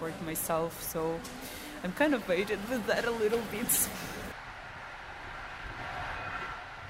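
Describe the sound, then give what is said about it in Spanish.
Interior of a moving passenger sleeper train headed to Kyiv at night, with a steady low rumble throughout; people talk over it for the first few seconds, then the rolling hum continues alone. “Me despido de Daria y sigo caminando por el tren.”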